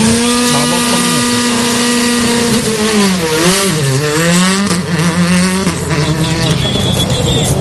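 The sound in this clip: Race vehicles accelerate with a loud, continuous engine roar. Several engine tones rev and swoop in pitch, dipping and climbing again throughout.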